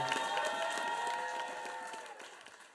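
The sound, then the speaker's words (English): Faint applause and light crowd noise from an audience celebrating the life of a friend's late pet named Percy. The clapping starts steady and gradually fades toward the end. “Everybody. Big round of applause for Percy,”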